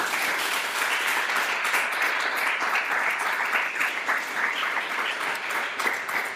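An audience at a church service applauds in a loud, dense, even wash of clapping from many hands that holds steady throughout, with no break or fade.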